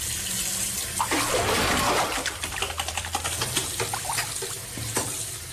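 Water sloshes and splashes continuously as fine, powder-like sand is mixed with water and mercury to capture gold, with irregular small splashes throughout.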